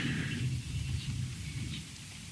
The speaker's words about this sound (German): das erste Donnergrollen, bevor es kam, das konnte ich nicht aufnehmen. Aber jetzt hört ihr sozusagen noch die Nachwehen.